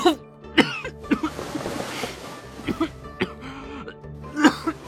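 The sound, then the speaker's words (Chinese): Violent coughing from someone pressing a hand hard over the mouth: many harsh, uneven coughing bursts in clusters, mixed with throat clearing and some faint vocal sounds between them. “钟婉撕心裂肺地咳了起来，他死死地捂着嘴”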